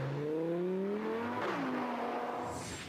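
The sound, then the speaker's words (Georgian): A small sports car engine roaring loudly, its pitch climbing steadily as it revs, dropping briefly at a gear change, then climbing again. “მილიონერებს ის მხოლოდ სისრაფის გამო კი არ მოსწონთ, ასევე მისი უნიკალური ომახიანი ბღუილის გამო უყვართ. ეს პატარა მანქანა ნამდვილი მონსტრივით ხმოის.”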